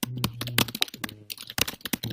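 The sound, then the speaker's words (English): Furious typing on a computer keyboard: rapid, irregular bursts of clattering keystrokes with sharp clicks and a few heavier key strikes, heard alone at moderate loudness. “Furious typing.”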